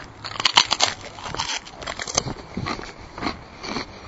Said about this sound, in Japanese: うん、美味しいです。でもこれ普通のせんべいですね。